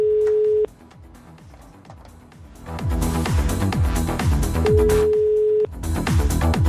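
Outgoing-call telephone ringback tone, two steady mid-pitched tone pulses about four seconds apart, the first cut short, over loud rhythmic background music.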